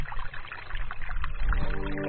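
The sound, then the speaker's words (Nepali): Water pours steadily, hot water being added to mix a drink outdoors beside a stream, a continuous faint splashing rush with no voices. “पानी थापेर ल, तातो पानी छ, त्यो mix गरेर खाइदिउँ।”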